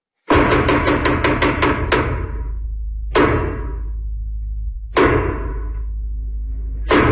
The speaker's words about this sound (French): Bon, les 12 coups de théâtre ont sonné.